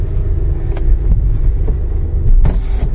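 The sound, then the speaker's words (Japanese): A car idles while queued at the back of a fast-food drive-through line in the plains of Niigata Prefecture, giving a low, steady engine rumble with some wind noise and no talk. “もうまたマクドナルドドライブスルーのですね、今ちょっと車が数台行列になっているところの最後尾につけましてですね、新潟県平野部、”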